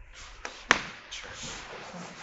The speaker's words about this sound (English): I'm going to shut that door.